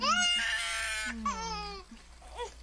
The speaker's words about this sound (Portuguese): Desculpe. Para de chorar.